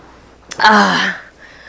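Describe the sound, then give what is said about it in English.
A sharp inhale of legal cannabis smoke: one short, strained, breathy draw with a voiced edge, lasting about half a second and then trailing off faintly. “in Canada, good old-fashioned weed is legal. So I'm taking a legal inhale right now.”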